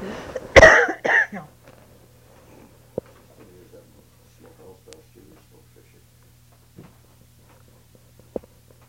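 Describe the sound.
A short burst of coughing comes from someone with a tickle in the throat, loud and harsh near the start. Afterward it is nearly quiet, with a low steady hum and a few faint knocks.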